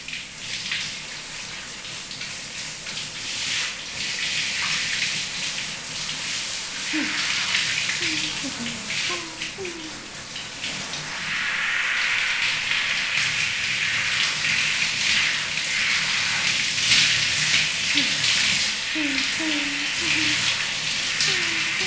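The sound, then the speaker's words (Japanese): Running water rinses shampoo off hair, a steady airy hiss of flowing water that swells noticeably louder about halfway through and stays full to the end. “それじゃあ流すよ。お、シャンプー目に入っちゃうといけないから軽く下向いててね。”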